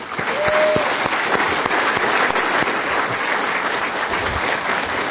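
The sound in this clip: Audience applause welcomes a speaker at a Commonwealth Club event: dense, steady clapping that holds at an even loudness throughout.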